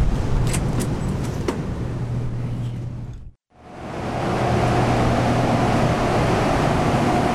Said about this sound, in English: That is the sound of hydroelectricity being produced. We are inside of our Hadley 1 unit right now, and we are currently in operation